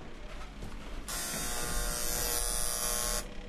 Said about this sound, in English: That sound you're hearing? It's the sound of the oldest hand-operated elevator in Connecticut.